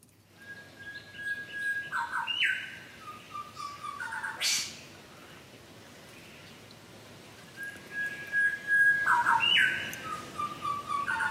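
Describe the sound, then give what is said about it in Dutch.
An eastern whipbird calls in the Managam nature reserve in Australia. Two calls each hold a long, steady high whistle that ends in a sharp whip-crack snap and a few lower trailing notes, over faint background noise. “Karin Schagen, die hoorde in het natuurgebied Managam in Australië de zwartkop zwiepfluiter en stuurt het geluid op”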